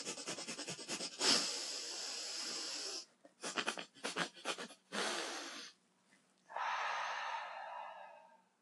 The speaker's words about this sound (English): So then there's faster techniques that you can do. Pump breath is a...